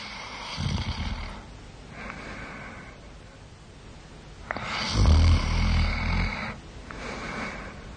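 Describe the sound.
Deep snoring of Adam in a biblical creation story where God casts him into heavy sleep. A few slow, rhythmic, low rasping snores swell and fade with each breath, with no talking.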